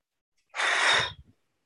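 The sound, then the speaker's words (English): A single long, breathy exhale empties the lungs during a counted breathing exercise, a soft rush of air lasting under a second that tails off into a couple of faint puffs, with no talk. “First thing that you're going to do is totally exhale in a count of four. So you're just going to let everything out of your lungs.”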